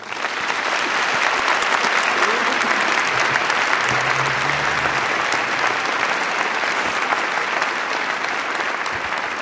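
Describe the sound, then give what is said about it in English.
Audience applause welcomes a guest speaker, a professor of American history. The clapping holds steady and fairly loud for about nine seconds without voices. “Would you please join me in giving a warm welcome to Dr. Richard Beeman.”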